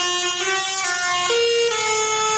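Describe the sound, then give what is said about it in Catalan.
Tractor horns honk through the streets of Lleida during a protest by young farmers and livestock breeders against rising fuel prices. The sustained, overlapping blasts are loud and steady, and one tone steps higher partway through. “En aquest cas són els tractors que s'han fet sentir pels carrers de Lleida”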